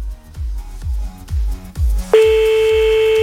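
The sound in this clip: A steady telephone line tone cuts in partway through as a caller in Corsica is phoned back, sounding over a regular thumping music beat that continues underneath.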